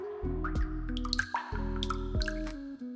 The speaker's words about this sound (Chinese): 水龙头冇闩好，水点慢慢滴落。